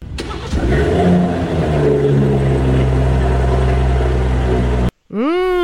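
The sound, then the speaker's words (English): Loud engine of an old BMW Gusheshe, a sharp rev at the start that settles into a strong, steady rumble before cutting off abruptly. “The first one is the new one, is the new BMW. The second one is the old Gusheshe.”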